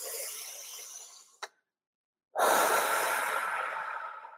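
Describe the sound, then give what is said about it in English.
A deep breath drawn in during a guided breathing pause. A long, airy breath is followed by a short click and a second of silence, then a second strong, sustained breath that slowly tapers off. “So I'm going to invite you to do that with me now. Take a deep breath in.”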